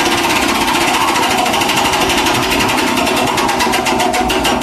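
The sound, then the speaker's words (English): A prize wheel spins with rapid, continuous clicking, a loud, dense rattle throughout, the individual ticks becoming more distinct toward the end. “Spin the wheel of ferretness.”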